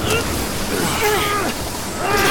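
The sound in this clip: A violent storm at sea around a sailing ship: a dense, constant roar of wind and crashing waves, with wavering wind whistles rising and falling on top.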